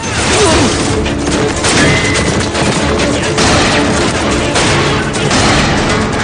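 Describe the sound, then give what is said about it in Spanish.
Sustained gunfire in a shootout from the 2007 western 3:10 to Yuma, with a machine gun and other firearms, forms a loud, dense barrage of cracks and bursts that never pauses. “El tipo de pelo largo continúa disparando contra el agente que sostiene la ametralladora hasta abatirlo.”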